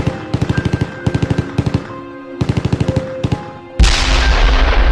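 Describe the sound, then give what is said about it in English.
Machine gun fire in Ukraine at the start of the Russian invasion, heard over a phone call. Several short, sharp bursts of rapid shots come in uneven clusters, then a louder, dense rush of noise takes over near the end. “we heard the machine gun fire begin in the background.”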